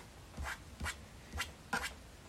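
Typing on a keyboard, with four soft, evenly spaced taps that stay faint.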